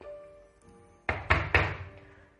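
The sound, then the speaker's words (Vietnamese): Three loud, heavy knocks on a room door land in quick succession after a stretch of quiet low hum, each a sharp thud with a dull wooden body and no voices. “Trần Chí Cường gõ nát cái cửa phòng của Dương Minh.”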